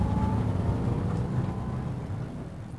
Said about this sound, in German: Der Transporter fährt auf die Kamera zu.